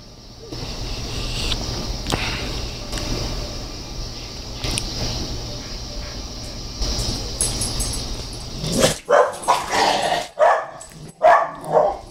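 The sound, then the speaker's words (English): A pet dog in the room barks in a quick run of several sharp, loud barks, cutting in after a steady hum of film soundtrack playing in the background. “My dog, that's not in the movie. So if you're watching it with us and there's no dogs barking, there's no asshole dogs in your side.”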